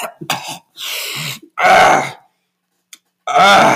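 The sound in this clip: A voice imitates a weary man's coughing with several loud, rough, raspy bursts of hacking and throat-clearing, separated by brief pauses.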